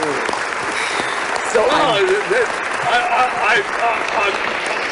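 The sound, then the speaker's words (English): Applause greets a guest on a celebrity countdown show as an ovation of dense, steady clapping that runs loud and unbroken throughout. Voices speak over the clapping. “I've never had an ovation like that.”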